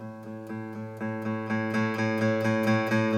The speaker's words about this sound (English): we're going to be just doing a steady down and up stroke on the A string, like so. Pretty simple. You don't even need your fretting hand. Now, what I want you to focus on is playing as softly as you possibly can,